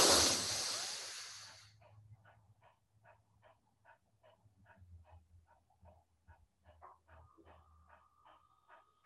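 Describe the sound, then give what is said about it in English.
A quick, forceful inhalation taken during a guided breathing exercise opens as a loud rush of breath, then fades into near quiet with only a low steady hum and faint soft pulses. “Once more, breathe in quickly.”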